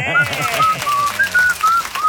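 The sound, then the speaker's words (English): A person whistles several short, bright, high notes in a loose rhythm, with a brief stretch of talk at the start. “Now you are whistling like a man that's just won $100 worth of hot chicken.”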